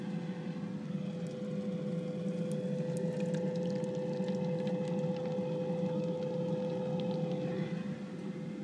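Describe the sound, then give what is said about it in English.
An air fryer runs in a home kitchen, giving off a continuous whirring hum with a steady tone above it. The noise stays even and unbroken from start to finish, and no one speaks. “Unfortunately, the air fryer is generating so much noise, you probably couldn't hear anything else.”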